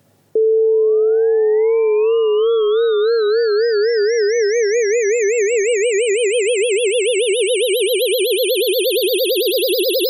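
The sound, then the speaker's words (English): Brain tissue seizure voltage converted into sound: a loud, continuous electronic tone that starts steady, then wobbles with growing vibrato while its higher overtones climb steadily in pitch over about ten seconds. “So you're basically causing the brain tissue to have a brain seizure. Yes. And it sounds a little bit, if you get to transform the voltage into frequency of sound, then it will sound like this.”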